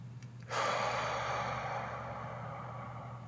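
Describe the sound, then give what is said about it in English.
A single deep, airy breath for a guided breathing exercise starts abruptly and flows steadily for nearly three seconds, loud and alone with no talking. “Take a deep breath and let it out. And breathe in”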